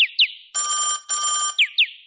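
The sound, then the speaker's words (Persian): A mobile phone rings loudly on its own with an electronic ringtone. Quick high chirps in pairs frame two sustained, buzzing tone bursts in a repeating pattern. “نه آقا، این صدای گوشی منه.”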